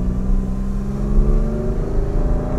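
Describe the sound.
Steady engine drone and road rumble from a car being driven with its windows open: a low, continuous hum with gentle swells in engine pitch throughout and no voices.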